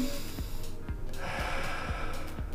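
Five short, sharp breaths through the nose, evenly spaced in a quick rhythm, demonstrated as a breathing exercise for meditation.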